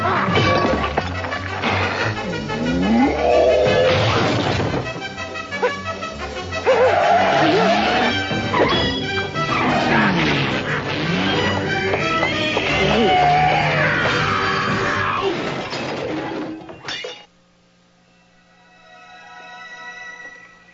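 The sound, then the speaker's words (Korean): Kitchen objects crash and shatter during a chef's frantic chase in an animated film: a loud, dense jumble of smashes and clatter layered with sweeping tones, lasting about seventeen seconds before cutting off to a faint, quiet tail. “주방장과 쫓고 쫓기는 싸움이 시작됩니다. 덕분에 주방의 물건들은 모조리 박살나지요.”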